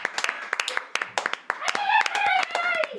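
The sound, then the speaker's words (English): A little round of clapping from a live audience, many sharp uneven hand claps with voices calling and whooping over them. “Should we give a little clap?”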